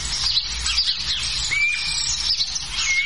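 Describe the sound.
A guira cuckoo calls with thin, high whistles and scattered chirps over a steady, noisy background hiss; a couple of longer drawn whistle notes stand out, fairly faint.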